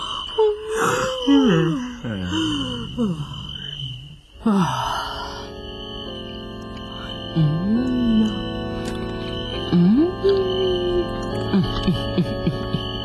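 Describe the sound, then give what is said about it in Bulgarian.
Snoring while napping comes as drawn-out wheezing, groaning breaths that rise and fall in pitch, several in a row, over a steady tonal background. “Доспани се. Извинявай, Лисо. Аз май ще подрем.”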